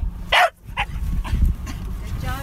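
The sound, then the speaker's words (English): A detection dog trained to sniff out whale scat gives a few short, sharp barks and yips over a steady low rumble. “That's the sound of Eba the whale dog.”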